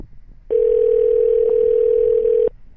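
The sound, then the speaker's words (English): A telephone ringing tone sounds on an outgoing call: one loud, steady, unbroken burst of about two seconds, heard alone with no talking over it. “Some ringing? Are we calling somebody?”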